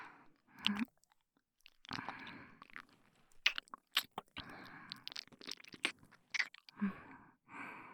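Soft, wet mouth sounds of someone licking something tasty come as a few bursts of smacking and slurping separated by brief pauses. The sounds are faint, close and intimate, with no talk.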